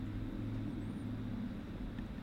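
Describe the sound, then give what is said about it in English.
Motorcycles driving by outside make a continuous low engine rumble that stays fairly even and moderately loud throughout, with no distinct passes standing out. “there's a lot of motorcycles driving by, so sorry for the noise.”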